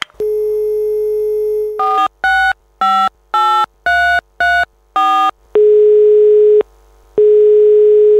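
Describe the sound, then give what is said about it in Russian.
A telephone's steady dial tone gives way to a rapid run of short touch-tone dialing beeps, then two long, even tones separated by a brief pause. The tones are loud and clear, with no voices. “Ладно, я позвоню.”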